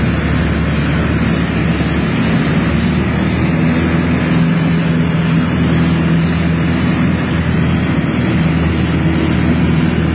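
An airplane taxiing across a runway gives a steady, loud engine drone with a low hum that holds constant and unbroken throughout.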